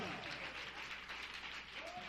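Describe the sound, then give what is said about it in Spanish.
A church audience claps for God during an evening service, with faint, dense, continuous applause throughout. “póngase de pie en esta noche, hermano. Y si la palabra le llegó, dele palmas a Dios en esta noche.”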